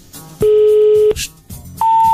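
Telephone tones on a call to a radio listener that reaches voicemail: a loud, long, steady low tone breaks off, then after a short gap with faint noise a higher steady tone begins.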